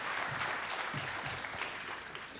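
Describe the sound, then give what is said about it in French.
Applause from an audience at an evening lecture: many hands clap in a steady, dense, crackling patter, fairly faint throughout. “Mais vous applaudissez peut-être un peu trop tôt.”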